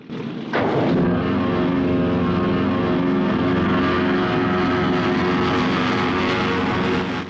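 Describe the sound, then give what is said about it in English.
Airplane engines roaring as the plane gathers speed for takeoff after passengers board from a boat. A sudden onset leads into a loud, steady, broad roar with a droning hum underneath that holds to the end. “The hatch is then closed, and the plane gathers speed for takeoff.”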